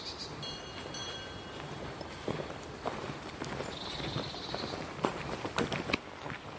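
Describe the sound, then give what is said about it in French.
Clanking bells worn by two red cows lounging below a path, a few faint, irregular clonks over a quiet, steady outdoor hiss. “deux vaches rousses qui se prélassent, voilà, tranquille. Et on entend leur clarine que je n'avais pas encore entendue.”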